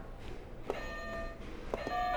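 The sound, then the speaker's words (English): A game buzzer pressed during a child's picture test, bright electronic beeping tones that start in a couple of abrupt bursts over faint background hiss. “Alright, you can go ahead and hit a buzzer.”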